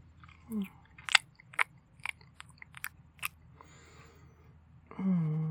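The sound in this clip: Someone bites and chews a cheesy noodle dish in white sauce, making a series of sharp, crisp crunching clicks at irregular intervals. A short voiced sound follows at the end.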